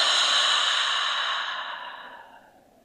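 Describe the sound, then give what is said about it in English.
A slow, deep breath out through the mouth at the end of a breathing exercise: a soft, airy exhale heard alone that fades steadily over about three seconds. “And one last breath in through the nose and out through the mouth.”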